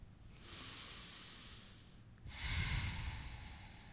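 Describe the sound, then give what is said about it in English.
Deep breaths drawn slowly through the airway, heard as long, airy hissing sounds. The second breath is louder and fuller than the first, with no talking. “So let's take in two deep breaths.”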